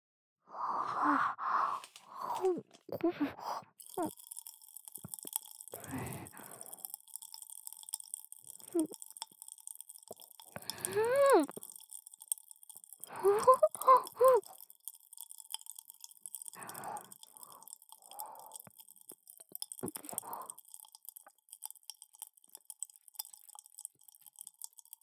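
A large mouthful of sweets is chewed and crunched in bursts of wet, crackly mastication with quiet pauses between them, the whole sequence fairly faint, with a breathy sigh or two.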